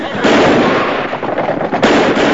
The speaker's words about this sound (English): The gang shoots off their pistols at the townsfolk and ride off in a hail of indiscriminate bullets.